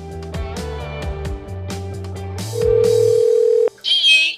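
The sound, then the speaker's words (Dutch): A telephone tone sounds as a call is placed: one steady beep of about a second follows a run of melodic notes, then a brief higher burst closes it. “Vandaag bellen we met Emma Moutaan”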